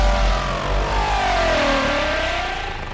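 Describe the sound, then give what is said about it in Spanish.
A car engine revs loudly and without a break, its pitch sinking and then climbing again as the throttle changes, with no voices over it. “¿Qué cosa es eso? Tu carro, Roger. ¿No te alegra que lo hayas recuperado?”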